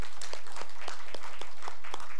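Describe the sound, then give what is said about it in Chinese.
Church audience applauding during a worship service, a dense, steady patter of many hands at an even loudness throughout, with no voices on top. “我哋可唔可以将掌声归俾我哋嘅上帝？”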